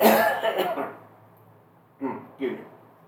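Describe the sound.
Two short, sharp coughs from someone with allergies, sounding close together near the end after a moment of talking, moderately loud against a quiet background.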